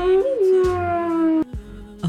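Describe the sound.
A ghost howling sound effect: an eerie, wavering tonal howl holds a steady pitch for over a second, breaks off briefly, then a second, lower and quieter howl follows.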